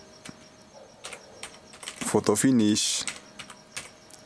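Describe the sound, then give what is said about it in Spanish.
Fingers type on a computer keyboard in scattered clicks of varying strength. A short, louder tonal burst rises midway before the keystrokes go on sparsely. “Vamos a buscarla, José, a ver si se aparece. Pues con gusto, ya sabes, vamos a teclear aquí, ¿no?”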